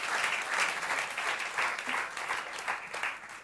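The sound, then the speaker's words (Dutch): A church audience applauds a panel at the close of a service, steady continuous clapping with a few louder swells, alone without talk. “Why don't we give our panel a hand? Laten we eens een applaus geven.”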